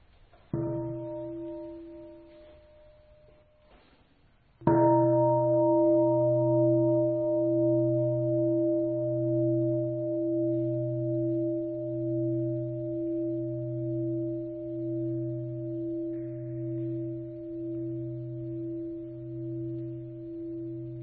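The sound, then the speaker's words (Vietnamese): A Buddhist temple bell rings with a deep, resonant strike that hums on in a long, sustained decay with a slow, steady pulsing beat. The tail of an earlier, quieter ring fades before it. “Con xin Thầy thỉnh ba tiếng chuông cho các em đảnh lễ Tam Bảo.”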